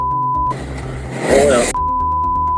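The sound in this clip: A car is driven through Novorossiysk, and a steady low road and engine drone runs throughout. A voice talks over a louder rush in the middle, and a plain high tone sounds at the start and at the end.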